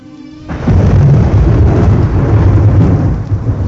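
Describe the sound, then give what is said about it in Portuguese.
A thunderstorm over a city: after a quieter opening, a heavy thunder rumble breaks in and rolls on loudly, with dense steady rain throughout. “Semele, uma tempestade aterradora começa a escurecer rapidamente o céu da cidade, transformando a atmosfera num cenário de terror e pânico”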